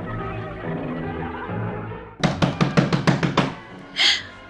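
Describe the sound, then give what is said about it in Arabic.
Knocking on a door in a strange pattern: a quick, irregular burst of many sharp raps that cuts in after a sustained musical drone, followed by a short hissing swell. “مين بيخبط علينا الساعة دي؟ وإزاي يخبط بالطريقة الغريبة؟”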